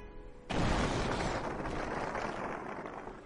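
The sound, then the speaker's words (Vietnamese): A far-off explosion from a fierce battle booms in with a sudden onset, then lingers as a broad, rumbling roar that slowly fades over a few seconds. “tiếng nổ vang kịch liệt nơi phương xa mơ hồ truyền tới.”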